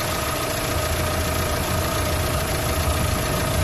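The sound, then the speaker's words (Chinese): A car engine idles cold with a valve rattle that fades once it warms up, giving a steady, unbroken drone with a dense, rough texture throughout. “等他怠速下来，他过一会怠速就下来了。”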